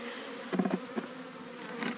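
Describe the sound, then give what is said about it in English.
Honeybees buzz around a caged queen bee, a steady insect drone with a few louder, pulsing swells of buzzing near the start and again toward the end. “The bees can get at her and feed her. Okay, I'm gonna dump them in.”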